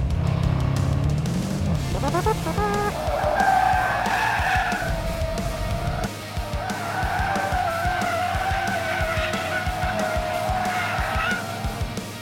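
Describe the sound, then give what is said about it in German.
A Continental GT V8 is driven hard and skids sideways across a hill, its engine roaring continuously while the tires squeal throughout, loud and sustained. “ballert mit seinem Continental GT V8 auf dem Pilsterberg quer durch die Gegend.”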